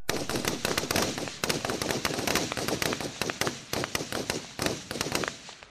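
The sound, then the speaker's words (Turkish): Gunfire rings out in battle during the 1915 Gallipoli landing: dense, crackling shots overlap in rapid, irregular bursts, loud and nearly continuous throughout, with sharp individual cracks standing out. “Kurşun sesleri her yerde.”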